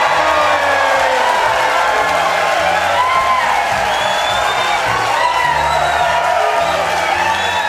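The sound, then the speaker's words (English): A big live audience cheers loudly in Etna, California: a dense, continuous roar of cheering voices with whoops and shouts layered over it at steady volume throughout. “Oh, the thrill of that big audience, the cheer that drowned us out.”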